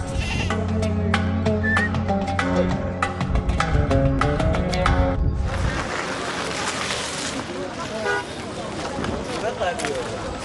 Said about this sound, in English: The animal market exports about 10,000 herds of domestic animals to many regions of the world every day.